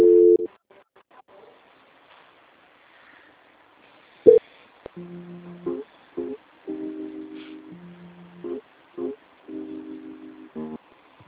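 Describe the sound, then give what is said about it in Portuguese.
Faint electronic telephone tones play during a call transfer while the caller is on hold. A louder tone comes first, then a sequence of short steady beeps at a few different pitches, separated by brief gaps. “vou transferir a ligação para o setor de qualidade, que vai dar continuidade à nossa contratação. A ligação vai ficar muda, mas a senhora não desliga, tá?”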